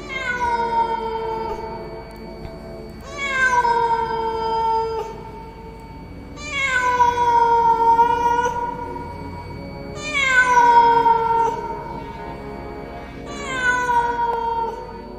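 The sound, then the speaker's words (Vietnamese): A cat meows mournfully at night, five long, drawn-out wailing calls spaced evenly apart. Each call starts high and slides downward in pitch before trailing off, with quiet gaps between. “Bất thình lình ở phía sau lưng tôi vang lên một tiếng mèo kêu thảm não, lạnh người trong đêm tối.”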